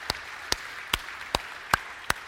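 Six slow, evenly spaced hand claps ring out during a church service, each one a sharp, separate smack. Quiet gaps fall between them, as if only a few people are clapping.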